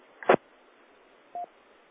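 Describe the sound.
A phone message notification tone: a short burst followed a moment later by one brief, steady electronic beep, both clear over faint hiss on a narrow, telephone-like line.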